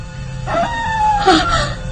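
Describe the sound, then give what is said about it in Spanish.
A mastiff dog howling in a long, wavering, mournful tone that rises slightly toward the end, carried over a low, steady hum. “De nuevo esos horribles aullidos. Debo pensar que es Lucifer, ese mastín consentido de papá.”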